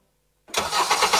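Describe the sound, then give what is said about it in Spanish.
Car engine starts after a moment of silence, catching suddenly and settling into a loud, steady running roar, with no voices. “seguimos con motores encendidos”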